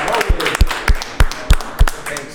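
People clapping for a guest on a hip-hop show, a series of sharp, evenly spaced claps at a steady beat over a low background.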